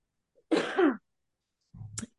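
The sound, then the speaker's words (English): Throat clearing by a person, coming as two short, rough bursts separated by a pause; the first is louder and voiced, the second lower and grittier, with no talk around them. “I need to clear my throat.”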